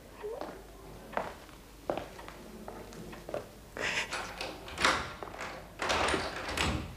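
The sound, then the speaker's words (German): A door is locked in a room full of furniture: a few faint knocks and clicks come first, followed by a run of louder shuffling footsteps and scrapes. “Wir müssen abschließen wegen all der Möbel hier.”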